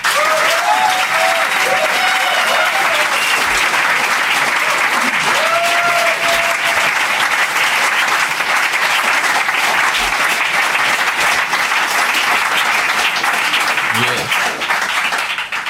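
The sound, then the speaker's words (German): Audience applause at a live outdoor show along a river: sustained, loud, dense clapping from a large crowd that carries on unbroken for the whole stretch, with a few brief voices rising above it. “Und ich darf jetzt kurz wieder um einen Applaus des Publikums bitten.”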